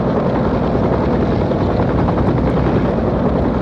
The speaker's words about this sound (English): What's that noise? Bob looks up into the sky. Helicopter coming into Waterloo Air Terminal.